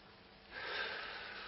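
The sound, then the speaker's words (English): A single deep breath drawn in by a person in a room, a breathy rushing hiss that swells after a brief quiet start and holds for about a second, with no talk. “I just breathed it in. That's air.”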